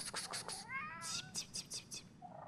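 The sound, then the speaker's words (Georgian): A neighbour's ginger cat meows faintly in a cellar, giving a few short, strained cries, one drawn out with a wavering, falling pitch. “შენ და მეზობლის წითური კატა.”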